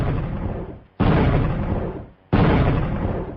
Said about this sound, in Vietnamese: Hán tử hơi biến sắc, lấy trong bọc ra một cái pháo lệnh, châm lửa đốt. Pháo lệnh giọt lên không trung, nổ liên tiếp 3 tiếng.